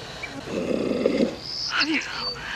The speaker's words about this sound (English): She sees a lion walking towards her.